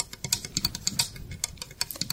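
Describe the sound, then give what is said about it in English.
Fingernails tapping on a small plastic Lego house make many quick, light clicks in an irregular rhythm, quiet and crisp with brief pauses between clusters of taps. “Here she is quietly touching a little house made of Legos with her fingernails.”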